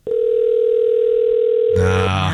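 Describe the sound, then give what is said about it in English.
Ringback tone of an outgoing telephone call from a studio line: one long, steady mid-pitched ring lasting almost two seconds, followed by other sound and talk at the very end. “Well, there's one ring. I didn't get sent the voicemail yet, so it's two rings.”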